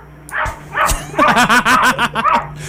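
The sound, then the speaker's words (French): A cat barking like a dog: a couple of separate short calls, then a quick run of many high-pitched yapping barks in steady rhythm, with no other sound. “Puis qui jappe. Il y a un chat qui jappe sur Internet, c'est le fun.”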